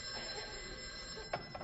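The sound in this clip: A telephone bell rings in a steady, continuous metallic trill that holds through the whole short moment, with a slight bump in loudness near the end.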